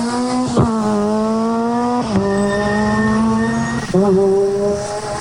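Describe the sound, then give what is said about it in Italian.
A 600 race car accelerates hard away from a race start area through four gears, its loud, buzzing engine note holding steady between clear breaks at each gear change, with no talk. “Avete sentito questa 600 che in poche centinaia di metri ha messo quattro marce?”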